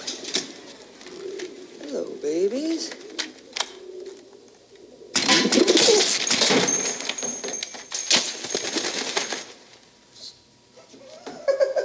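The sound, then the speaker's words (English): Pigeons coo in a store where they keep setting off the alarms: low, throaty calls in the first few seconds, followed by a loud burst of broad rustling noise mid-clip. “Osama bin supervisor wants me to get rid of these pigeons first. They keep setting off the alarms.”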